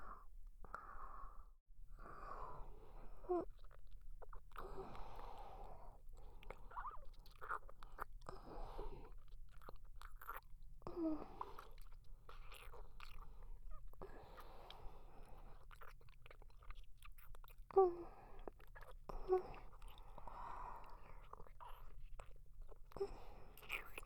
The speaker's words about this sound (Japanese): このままねっとりと舌を絡め合いながら、二人で溺れちゃいましょう。